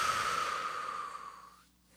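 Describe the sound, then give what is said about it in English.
A single deep breath during a group calming exercise: a steady, airy hiss lasting nearly two seconds that slowly fades out, with no talk over it. “everybody take a deep breath in and out.”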